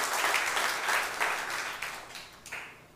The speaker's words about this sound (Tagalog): Palakpakan mo si Lord, come on.